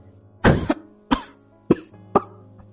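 Soft coughing: four short, muffled coughs spaced roughly half a second apart, over a faint steady hum.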